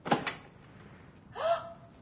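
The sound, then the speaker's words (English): A door to a dentist's surgery opens with two quick knocking thumps followed by a short, drawn-out creak of the hinges, fairly faint and with no talking. “Here's the door to the surgery,”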